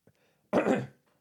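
One man clears his throat once, a short rough rasp caused by coffee. A faint breath comes before it, and near silence follows.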